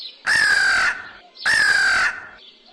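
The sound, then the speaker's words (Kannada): A crow calls twice in loud, drawn-out, raspy caws of equal length, evenly spaced, with no voices over them. “ಎಂದು ಕೂಗಲು ಪ್ರಾರಂಭಿಸಿತು. ಕಾ ಕಾ ಎಂದು ಕೂಗುತ್ತಿರುವ ಕಾಗೆಯ”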